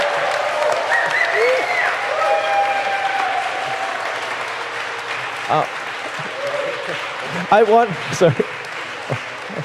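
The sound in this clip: An audience gives warm applause to welcome guests at a gathering. The clapping is steady and moderately loud, and voices speak over it, growing more prominent near the end.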